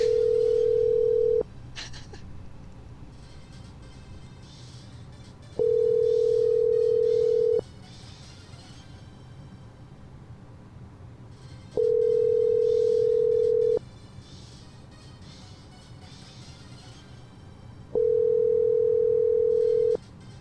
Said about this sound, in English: Let's call Cody. That's his phone ringing.